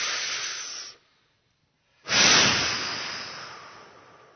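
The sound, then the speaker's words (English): Deep breaths during a guided breathing exercise: a loud, hissing exhale cuts off after about a second, then after a short silence a second forceful breath rushes in strongly and slowly fades. “Okay, three more breaths. Let all of this out now. Let it go. All that bitter, grungy stuff. Okay, out of every cell now. Here we go. First breath.”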